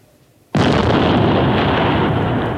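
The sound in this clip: A hand grenade explosion: after a moment of quiet, a sudden loud blast breaks into a dense, sustained roar that holds steady for about two seconds before easing slightly.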